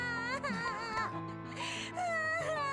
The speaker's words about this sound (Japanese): どうして彼女はずっと泣いたままなのですか？